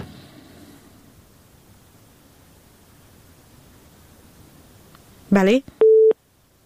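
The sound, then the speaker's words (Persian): Telephone tones after a call is cut off: faint hiss, then a short warbling electronic burst followed by a steady beep that ends abruptly. “متاسفانه تماس آخونزاده صاحب قطع شد”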